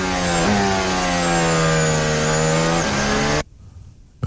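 Formula 1 race car engine from an onboard view: a loud, high, buzzing whine rich in harmonics, its pitch shifting with gear changes, before the roar cuts off abruptly near the end, leaving only low rumbling noise.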